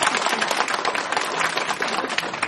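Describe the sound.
Audience applause at a presentation of a spiritual society, with people clapping for their teachers. A loud, dense crackle of many hands continues without a break from start to end.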